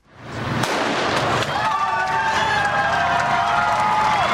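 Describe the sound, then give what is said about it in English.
Starting gun for the elite men's race at the 116th Boston Marathon. A sharp bang comes early, and a crowd's cheering swells quickly into a loud, sustained roar, with a long steady tone running through it. “Here's the sound of this morning's starting gunshot for the elite male runners.”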